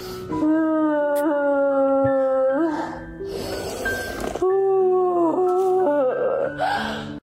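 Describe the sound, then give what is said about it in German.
A person imitates a howl with several drawn-out, wailing vocal cries that bend in pitch, separated by breathy, rasping noise, loud and without other talk. “Okay, warte, ich muss kurz heulen.”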